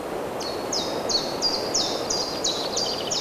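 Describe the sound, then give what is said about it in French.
Birds sing among green trees, one repeating a high, quick downslurred note many times at a steady, even rhythm over a soft, constant background hiss. “Ces arbres et ces oiseaux enchanteresques.”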